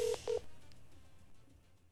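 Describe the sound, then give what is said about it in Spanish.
Touch-tone keypad beeps as a telephone number is dialed: two short, steady tones separated by a brief gap, followed by faint line hiss with no talk. “Listo, ya le voy a marcar.”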